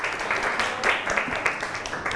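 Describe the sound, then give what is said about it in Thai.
Classroom applause for a student: a group claps in a brief, uneven patter of many soft claps with no clear rhythm. “ก่อนอื่นปรบมือให้เพื่อนหน่อยเร็ว”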